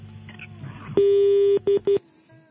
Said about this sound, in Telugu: Call cut చేస్తారా? వేరే callers wait చేస్తున్నారు.